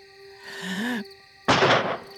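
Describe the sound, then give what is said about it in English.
A single gunshot from boys' target shooting with a bullet, heard as an abrupt, loud burst of harsh noise that cuts off after about half a second, following a quieter stretch. “Boys, quit that shooting.”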